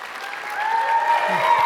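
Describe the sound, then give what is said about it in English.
Students cheering and applauding, a sustained wash of clapping with cheers that swells slightly louder toward the end. “Now, the students are cheering because Kristen is in high school.”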